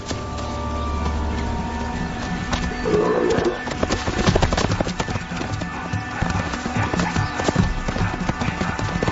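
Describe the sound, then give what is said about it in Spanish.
Zebras gallop in pursuit of a young leopard, a dense, continuous drumming of many hoofbeats that stays steady and loud throughout with no clear pauses. “Sonidos de la persecución de las cebras a la joven leopardo.”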